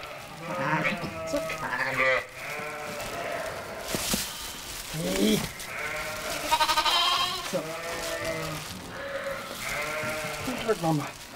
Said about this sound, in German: Das erste Lamm ist schon da.